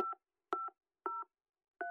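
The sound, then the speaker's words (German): Telephone number being dialled on a touch-tone keypad: four faint, evenly spaced clusters of dual-pitched beeps, each a quick double blip, separated by silence. “The number you dialed is temporarily unavailable.”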